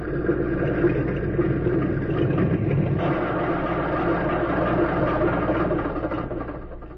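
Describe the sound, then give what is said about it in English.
A small plane's engine runs on after it lands on a small field at dusk, giving a steady low droning idle. The drone holds evenly for several seconds, then eases slightly quieter toward the end. “Just before darkness fell, a plane circled the small field and came in for a landing. As its wheels touched the ground, two men ran to meet it.”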